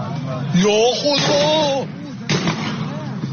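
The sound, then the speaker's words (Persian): Gunfire during street clashes in Kermanshah, Iran, with people being shot at: a couple of sharp reports cut through while a voice talks excitedly over them. “حاجی تیر زنن، من گفتم مشقیه.”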